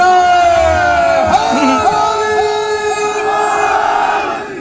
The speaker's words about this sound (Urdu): علی کا نعرہ جو محفل میں ہم لگاتے ہیں،